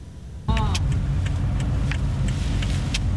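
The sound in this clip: A car drives through the city streets of Hualien, giving a steady, fairly loud low rumble of engine and road noise throughout, with brief voices and a few sharp clicks over it.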